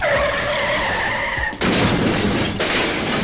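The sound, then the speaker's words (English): A Saturn Z2000 sports car speeds with its tires squealing in a high, sustained whine for about a second and a half. A sudden loud crash-like burst cuts it off, and a second burst follows about a second later. “There you have it, folks. The new Saturn Z2000. Everything you want in a sports car, including a working airbag.”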